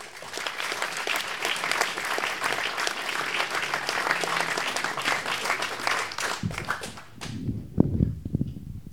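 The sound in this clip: An audience applauds to welcome a first-time storyteller at a family-secrets story night. Dense clapping lasts about seven seconds and then dies away, and a voice begins speaking.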